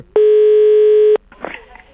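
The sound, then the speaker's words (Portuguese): A telephone tone sounds while a phone call is being placed: one loud, steady, unbroken electronic tone lasting about a second, then faint low noise. “Vamos ligar pra essa fofoqueira.”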